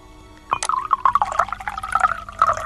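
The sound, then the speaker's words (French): Sacred water poured into a calabash during a ritual: a steady gurgling, bubbling trickle begins abruptly and continues unbroken to the end, moderately loud and alone. “Je vais mettre l'eau dans cette calebasse. Je verse l'eau sacrée.”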